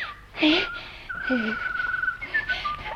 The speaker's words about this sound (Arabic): يا خبر، ده الطير، الكروان. اما استخبى هنا ورا اللوان واشوف الكروان ده ايه.